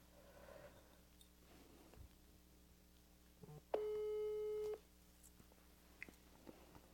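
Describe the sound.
A single steady ringback tone, about one second long, sounds during a phone call being placed to someone's mother. Otherwise there is only a faint, quiet background with a few small clicks.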